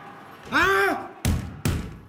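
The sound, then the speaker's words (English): Blanks fired from an assault rifle by a police officer posing as a gunman in a school active-shooter drill in Bangkok: a loud shout, then two sharp, loud cracks in quick succession, each trailing off briefly. “A Thai police officer posing as a gunman shouts and fires blanks from an assault rifle as students hide under desks in locked classrooms.”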